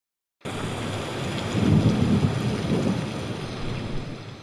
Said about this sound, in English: It's raining.